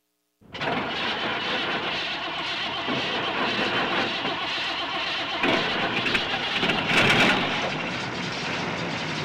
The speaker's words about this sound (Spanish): El auto. The car.